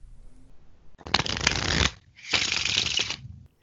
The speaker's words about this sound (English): But here's him doing an imperfect shuffle. See if you can hear the difference.